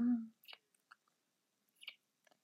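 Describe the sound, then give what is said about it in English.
Kissing: a few soft, wet lip smacks and mouth sounds, separated by short silences, following a brief voiced sound at the very start. “You watch her and I start to kiss. Our lips melting. Our tongues sliding in each other's mouths. Kissing so sweetly.”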